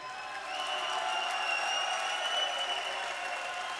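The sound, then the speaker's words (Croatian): Steady audience applause at a concert in Skopje. It is a smooth, sustained wash of many hands clapping, fairly soft and even from start to finish. “Zamolit ću vas sada za jedan spontani aplauz.”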